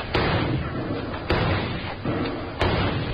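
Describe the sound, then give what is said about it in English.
Rifle gunfire in a radio drama: a few sharp, loud cracks spaced about a second apart, each cutting through a constant, dense wash of noise. “Jingles, take your rifle and see if you can smoke them out.”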